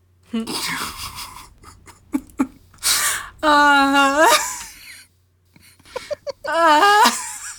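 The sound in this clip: Heavy, labored breathing comes in several loud bursts of gasping, partly voiced breaths with short pauses between them.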